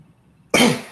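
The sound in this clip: A single loud cough bursts out abruptly after a near-silent stretch, harsh and breathy, then trails off briefly.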